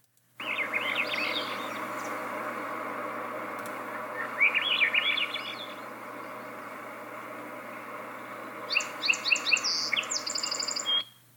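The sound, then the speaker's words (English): A Swainson's thrush sings three separate flute-like phrases of quick notes that spiral upward, with a pause between each phrase, over a steady background hiss. “That was the upward spiraling flute-like sound of the Swainson thrush.”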